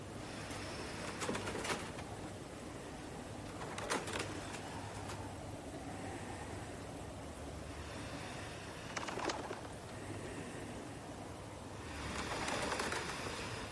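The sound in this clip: Pigeon cooing outside a penthouse balcony glass door, with soft, faint coos recurring a few times over a steady low hiss.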